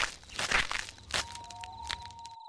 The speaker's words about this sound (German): Wir gehen an der Mauer entlang. Vielleicht kommen wir dann irgendwo raus.